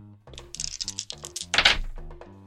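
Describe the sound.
Dice rattle and clatter during a tabletop role-playing game, a quick run of sharp clicking knocks followed by a louder tumbling burst and a few final light taps.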